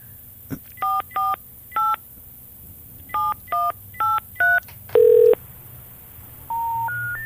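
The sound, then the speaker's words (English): Telephone number dialed on touch-tone keys: seven short beeps in uneven groups, then a longer, lower tone, followed by a rising sequence of steady tones, with a faint hum underneath. “I'm going to give him a call.”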